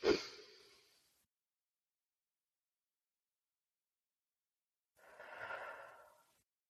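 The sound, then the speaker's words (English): One deep breath from a guided breathing exercise: a loud inhale, then about four seconds of silence while the breath is held, then a long, softer exhale. “We're going to take a deep breath in for a count of four. We're going to hold it for four, and we're going to release it.”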